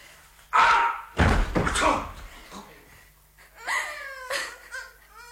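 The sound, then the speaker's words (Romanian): Heavy wooden thuds of a piece of wood striking a dog on the head in a children's story. Two loud, blunt knocks sound close together, followed by crying and voices. “Uite acolo un lemn. Am să-l lovesc în cap.”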